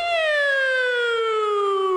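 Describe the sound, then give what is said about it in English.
A police car siren sounds as one sustained, loud electronic wail whose pitch slides slowly downward across two seconds, heard alone. “Cop sneaks up behind you. They have that nice soothing siren.”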